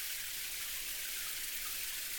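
Running water rinses hair during a hair wash, a steady, even hiss of flowing water that continues unbroken throughout, with no voices over it.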